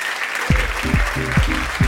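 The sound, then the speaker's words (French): Applause from an audience for a band at the end of a live radio music session, steady and fairly loud throughout, with a few low, rhythmic thuds pulsing beneath the clapping. “On peut les applaudir aussi.”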